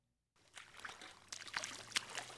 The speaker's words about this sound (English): A team of Environmental Protection Agency scientists are splashing around